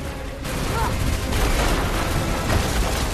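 An explosion tears through a base and its ceilings collapse, producing a loud, continuous roar of rumbling, crashing debris with heavy low booms that stay dense and unbroken throughout.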